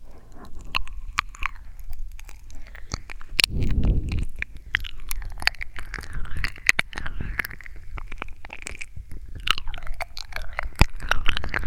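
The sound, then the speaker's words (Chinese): Wet ASMR ear licking and mouth sounds: close, moist smacks, slurps and clicks come irregularly over a soft background, with a denser burst partway through. “等等，或许舔舔耳朵更有效果，试试吧。”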